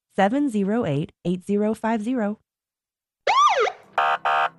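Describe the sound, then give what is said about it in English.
Police car sirens blare in short, wavering bursts of rising and falling pitch. After a brief silence comes a single swooping wail, then two quick, clipped blasts. “Sirens blaring, red and blue lights flashing.”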